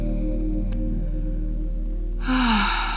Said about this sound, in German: Und schenke dir hier erst einmal ein paar tiefe Atemzüge, um in der Meditation anzukommen. Atme ganz tief durch die Nase ein.